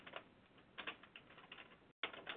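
Keyboard typing as a scripture search is entered into Google. Faint, rapid, irregular key clicks run throughout, broken by one brief pause.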